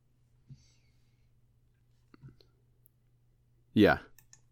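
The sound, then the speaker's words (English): A wallet is handled to pull out a work card fitted with an RFID blocker, giving a few soft, faint clicks before a brief burst of voice. “I just grabbed my wallet. My work card.”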